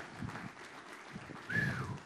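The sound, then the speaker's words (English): A church audience claps in praise, producing a dense, continuous patter of applause that stays fairly soft and swells slightly toward the end. “Let's give another clap of praise in this house.”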